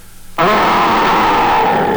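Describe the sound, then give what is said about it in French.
A voice imitates a big bear's terrible growl: one loud, rough, low roar that starts abruptly and holds steady to the end. “Et fais un terrible grognement d'ours.”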